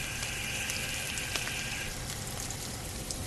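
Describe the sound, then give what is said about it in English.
Whole sage leaves, about eight, frying in brown butter with the heat turned off: a steady, dense sizzle and crackle that holds at an even level throughout, with no voices. “Now we add in the sage leaves, and the sage leaves are almost going to fry. And they're whole sage leaves. Whole sage leaves. Put them right in there.”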